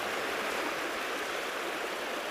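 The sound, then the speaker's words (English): River water on the Isla rushes steadily beneath a narrow bridge, a dense, even, unbroken wash of flowing water heard on its own. “It's about 60 feet long. It's over the River Isla in the middle of nowhere.”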